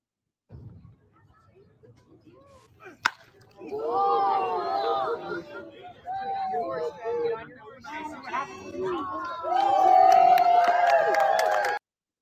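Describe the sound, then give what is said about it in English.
A single sharp crack of a baseball bat meeting a fastball, followed by a crowd of fans roaring and cheering in rising waves that grow loudest toward the end, with voices mixed into the crowd. “You can hear the fans right when he hit that crack of the bat, man. That is an amazing sound.”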